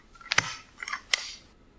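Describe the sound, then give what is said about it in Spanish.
A stapler being pressed during a sound-guessing game, giving a few crisp, sharp mechanical clicks with brief gaps between them and no talk. “¿Una engrapadora? ¿Una engrapadora? No, ¿verdad? No, pero. ¡Sí! ¡Sí!”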